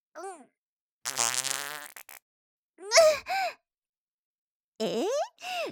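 Fart sounds come in a few bursts: a long buzzy one first, then shorter breathy ones with gaps of silence between, fairly loud and with no talk.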